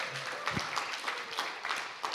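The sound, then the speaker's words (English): Faint applause from a church audience for the children seated among them, a soft, continuous patter of clapping with a few sharper bursts. “So can we have a big round of applause to all the children who are sitting here?”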